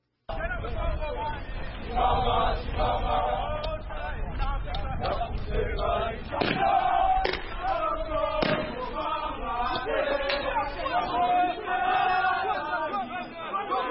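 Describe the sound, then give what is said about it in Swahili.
Police bombs dispersing Lucha youth protesters marching through Goma toward the governor's office: a crowd shouts and cries out continuously while a few sharp bangs cut through the din. “Hizo ni bomu za polisi kuwatawanya vijana wa Lucha wakiandamana hapa Goma kuelekea kwenye ofisi ya gavana”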